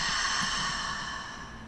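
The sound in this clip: A long, breathy exhale follows a deep breath, a steady airy rush that slowly fades toward the end.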